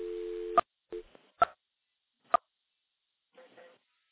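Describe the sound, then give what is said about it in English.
A telephone dial tone on an electromechanical switch: a steady, low, humming tone that stops after about half a second, followed by a few sharp, separated clicks and a brief, faint return of tone near the end. “Now we're going to go back into another electromechanical switch. There's a dial tone. We'll dial 9 for an outside line.”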